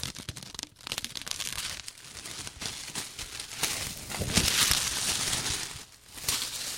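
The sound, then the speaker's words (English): Crinkling and tearing of plastic shrink-wrap as a still-sealed 1988 vinyl record, a Canadian pressing, is unwrapped; steady rustling crackle runs throughout, with louder bursts near the middle. “So now, for your pleasure, I'm going to unwrap this still sealed record from 1988. Yes, from 1988. Never open. Still sealed. So here we go.”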